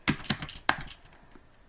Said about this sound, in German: So, und ich schreibe jetzt einfach mal Hallo Audio